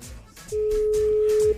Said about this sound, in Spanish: Está repicando. Vamos a ver.